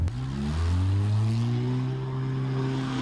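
Engine revving as two drivers accelerate a restored car with a sequential electronic gearbox that can drive sideways. A loud, steady, low drone climbs gradually in pitch and is heard alone, with no talk.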